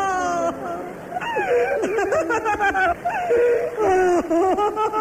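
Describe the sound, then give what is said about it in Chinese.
An adult and a child cry together, loud wavering wails and whimpering sobs in many broken bursts, the voices sliding up and down in pitch and overlapping. “大人一哭小孩也吓哭了。”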